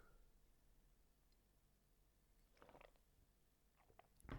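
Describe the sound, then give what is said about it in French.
A person takes a sip of water, heard as a few faint, quick wet gulps and soft mouth clicks spread over a few seconds, with no talk. “Je vais boire un petit coup d'eau et je vais vous répéter cette phrase.”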